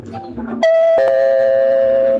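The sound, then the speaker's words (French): A doorbell chimes in two notes, a bright ding followed by a slightly lower, sustained dong that rings on for over a second, loud and clear. “Oh mais qui peut sonner à cette heure?”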